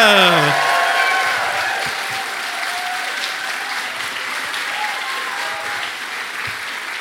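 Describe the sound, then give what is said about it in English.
Sustained applause from an audience welcoming two guests onto the stage, loudest at the start and easing slightly as it continues steadily with no talk over it. “Could you please put your hands together and welcome to the stage”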